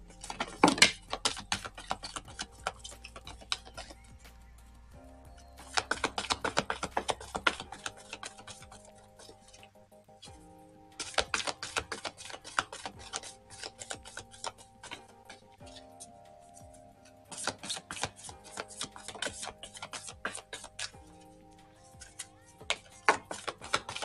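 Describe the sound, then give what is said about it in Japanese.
A deck of cards being shuffled: several bursts of rapid, crisp riffling clicks separated by short pauses, with no voices. “それでは少々お待ちください。カードをシャッフルします。”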